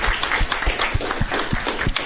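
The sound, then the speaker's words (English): Applause at a Chamber of Commerce gathering honoring a member who grew membership, a dense, steady patter of many hands clapping at an even level with a few low thumps throughout. “So I think that deserves a big round of applause.”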